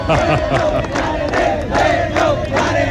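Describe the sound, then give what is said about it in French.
A crowd cheers and shouts for soldiers of the navy, loud and continuous, with many overlapping voices rising and falling in waves. “Les militaires sont acclamés par la population.”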